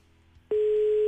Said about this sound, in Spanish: Ahí está la llamada ya.